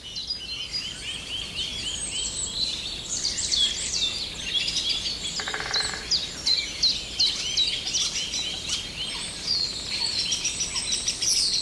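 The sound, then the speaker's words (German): An agitated song thrush calls in a rapid, restless run of sharp, high chirping notes throughout, and a coot gives one brief lower, nasal call partway through. “Da ein Blässhuhn. Ja, dieses Heftige ist eine Singdrossel, die aufgeregt ist wegen irgendwas.”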